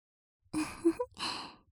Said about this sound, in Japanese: 力加減をしっかり調節すれば、こうやってふうふうするだけで感じてもらえるの。